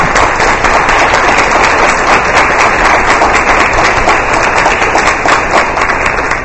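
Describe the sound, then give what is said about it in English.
Loud, dense applause from a school board meeting audience honoring students for extracurricular activities, a continuous wash of clapping that stays even throughout with no speech. “just give everyone another round of applause.”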